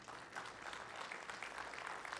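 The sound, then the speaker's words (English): A church audience applauds the Temple Baptist Church baseball team with faint but steady, dense clapping that continues throughout. “Go ahead and applaud.”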